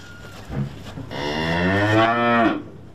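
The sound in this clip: A cow among livestock back from pasture gives a single long, low, drawn-out moo that swells and then breaks off. A brief faint sound comes just before it.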